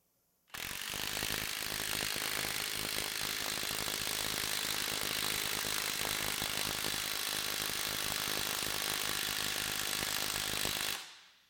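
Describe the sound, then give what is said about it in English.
Rapid continuous hammering of a maxed-out M18 cordless impact tool tightening a half-inch through-hardened alloy steel bolt, a dense, even rattling buzz that holds steady for about ten seconds, then cuts off. “Here's a maxed out M18 with a Bohm alloy in white on screen.”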